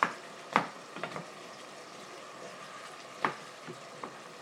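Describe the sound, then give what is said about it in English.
Mushrooms and onions frying in a pan give a steady, low sizzle while being stirred, with a few sharp scrapes and clinks of the stirring at irregular intervals. No one speaks. “So I'm frying the mushrooms and the onions here at the moment, and I'm giving everything a good old stir.”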